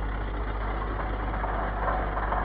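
A bus engine idles at a request stop on a high street, a steady low rumble with a constant throb and no changes in pace.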